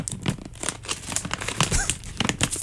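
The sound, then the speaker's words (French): A small plastic bag crinkles as it is opened, giving dense, irregular crackling and rustling that continues steadily throughout without pause. “Donc, je baisse la trame. Et on écoute notre beau petit sac s'ouvrir.”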